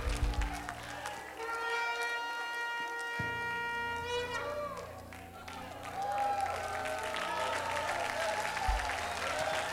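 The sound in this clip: A church audience applauds and makes noise, with dense clapping and crowd sound over sustained musical tones. The clapping swells again in the second half and continues steadily to the end.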